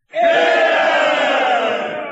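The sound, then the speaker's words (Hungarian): Large crowd gathered outside a house, cheering in a loud, dense roar that sets in abruptly and holds steady for about two seconds, easing slightly toward the end. “Alig lett meg, az üzlet híre ment. Nagy tömeg verődött össze a házam előtt.”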